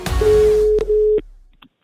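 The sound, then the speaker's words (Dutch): A telephone ringback tone plays while a call is being placed: a single steady mid-pitched tone lasting about a second, dipping briefly midway, followed by a few faint clicks. “Toch even reden om in deze AD Voer podcast te bellen met de doelman van Spakenburg, Alessandro Daan.”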